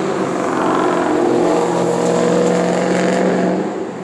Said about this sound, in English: that was a car, y'all. I don't know what the heck kind of engine he got.